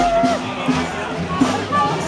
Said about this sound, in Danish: det her, det er lyden af fest i gaden